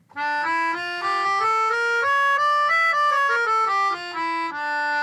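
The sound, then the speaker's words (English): A melodica plays a harmonic minor scale in sustained, reedy tones, stepping up note by note, then back down and starting to climb again, heard alone. “He says these musical traditions share a similar element, the harmonic minor. I have a melodica with me so I can play it for you. It sounds like this.”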